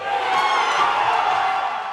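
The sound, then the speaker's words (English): Baseball fans cheering for the Milwaukee Brewers during a Game 4 playoff series against the Padres, a loud crowd roar with whoops and shouts that swells slightly and then eases toward the end. “Dozens of baseball fans cheered on the crew last night in the Game 4 series against the Padres.”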